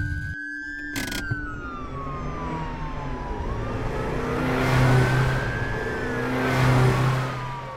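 A car revs and speeds off fast as a police siren wails. The engine roar swells and the siren's tone sweeps and falls in long wavering cycles, loud and without speech.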